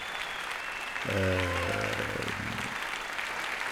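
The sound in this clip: An enthusiastic audience applauds a jazz trio after a concert, with dense, steady clapping throughout and a brief tonal sound rising over it midway.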